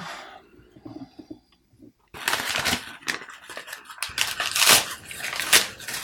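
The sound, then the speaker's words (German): Wrapping paper being roughly torn off a gift containing a DVD: a quiet start, then loud, continuous crinkling, ripping and rustling bursts, with some talk mixed in. “Ich bin mal sehr grob, das Geschenkpapier, da tue ich mal weg, ne?”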